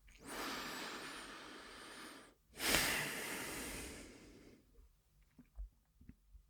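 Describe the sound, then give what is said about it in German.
A deep breath during a guided eyes-closed reflection exercise: one long, airy inhale followed by a long, steady exhale, then a few faint small noises. “wir nehmen noch ein letztes Mal einen tiefen Atemzug ein und aus”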